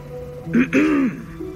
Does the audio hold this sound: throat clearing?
yes